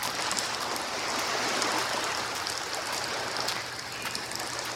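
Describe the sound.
Water splashes and sloshes steadily as clothes are washed by hand, a continuous, fairly faint wet rustle with no voices.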